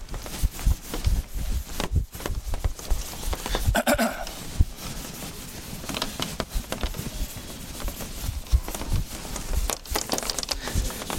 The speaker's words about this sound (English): Okay, I'm going to erase this. Voy a borrar esto.